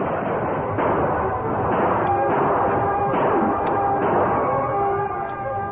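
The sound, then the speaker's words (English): Rifles blazing from troopers hidden inside covered wagons reinforced against bullets, a few sharp cracks standing out over a dense, continuous rumbling roar of gunfire. “The edges of the canvas tops were raised to disclose blazing rifles in the hands of troopers hidden in the wagon.”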